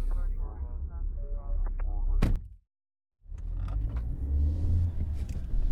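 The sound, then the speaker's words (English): Low, steady road rumble fills the cabin of a car on a drive to Eureka. A sharp knock is followed by a brief drop to silence, then the deep rumble resumes and continues. “I'm driving to Eureka now to see Matt Atkins.”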